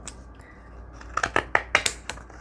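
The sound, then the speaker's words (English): Faint snips of scissors cutting a scalloped edge into paper for a card, several quick crisp clicks in a short irregular run after a quiet stretch. “So I have to go reverse because I cut it the other way, but I want the little scallops going this way.”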